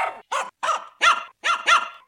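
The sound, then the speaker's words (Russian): A playful puppy barks happily while running ahead toward a garden gate, giving about six bright, high-pitched yaps in a quick, bouncy series, loud and alone. “Наш щенок-дружок впереди бежит, звонко лает, радуется.”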